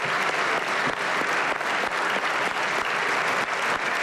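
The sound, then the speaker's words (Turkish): A parliamentary party group gives long sustained applause in a general assembly hall, a dense, steady clapping roll with no pauses. “AK Parti grubu ise Erdoğan'ı uzun süre ayakta alkışladı.”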